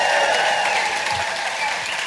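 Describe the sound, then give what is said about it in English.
An audience at a live show gives a loud round of applause for a tour manager, a sustained roar of clapping that stays even throughout. “So I'd just like everyone to give my tour manager, Beck, an amazing round of applause for getting us here.”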